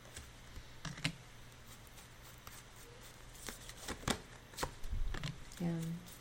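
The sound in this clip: A deck of oracle cards being shuffled: a few crisp, papery riffles and soft clicks, fairly faint and uneven in rhythm.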